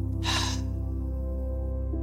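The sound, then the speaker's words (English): A deep breath drawn in through the nose and released through the mouth during a guided breathing exercise, heard as one short, airy rush of breath over soft, sustained background music. “you are going to take a deep breath in through your nose, holding it, and then releasing it after 3 seconds through your mouth.”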